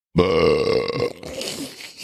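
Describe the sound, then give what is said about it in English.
A single long, loud belch bursts out suddenly and holds a strong, throaty tone for about a second, then trails off into a rougher, gurgling tail. “Belch number two.”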